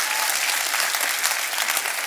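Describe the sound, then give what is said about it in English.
Applause from an audience at a church gathering, honoring the helpers: dense, steady clapping runs continuously for about two seconds with no break. “Let's give our helpers a round of applause.”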